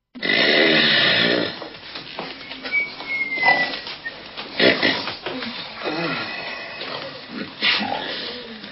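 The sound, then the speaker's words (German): Loud snoring rises from sleepy guests during a wedding ceremony at an inn. Irregular rasping snorts and rumbling breaths come one after another. “Bald war die Zeremonie von lautem Schnarchen begleitet.”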